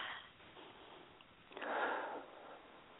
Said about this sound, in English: So just take a deep breath.